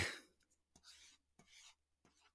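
A stylus scratches across a Remarkable e-paper tablet while someone doodles. A few short, dry, hissing strokes are separated by brief pauses and stay fairly faint, with no talk over them.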